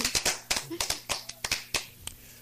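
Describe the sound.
Hand clapping from a small group: several sharp claps in a quick, slightly uneven run that fades toward the end, with brief talk alongside.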